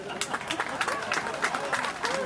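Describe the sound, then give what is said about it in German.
An audience at an outdoor market applauds the traders, many holding umbrellas: scattered, uneven clapping mixes with crowd chatter and voices, never building to a full ovation. “Schönen Moment für Applaus.”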